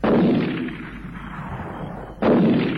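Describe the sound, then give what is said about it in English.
Two loud gunshots are fired at a big tree. Each is a sharp blast followed by a long, rumbling decay, with the second shot coming about two seconds after the first. “That's not just tree. He's round the bend shooting at trees.”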